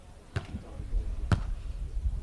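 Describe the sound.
Volleyball serves struck by a Jinan No. 1 team player during a match: two sharp, short slaps of the ball, about a second apart, over a steady low background murmur.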